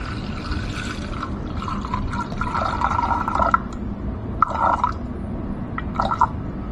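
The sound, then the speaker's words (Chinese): Water pours steadily into the lower carafe of a drip coffee maker set on a scale, 300 grams in all: a continuous trickling stream with gurgling splashes that swell in a few louder bursts near the end. “水我们先将它下面那个下壶放到秤上进行清零，清零以后呢，我们往里面倒300克的水。”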